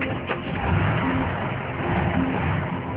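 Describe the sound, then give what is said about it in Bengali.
A police officer's car driving off at speed toward an incident, its engine a loud, steady, rough drone that holds throughout without a clear break. “গাড়ি নিয়ে ছুটে চললেন ঘটনাস্থলে”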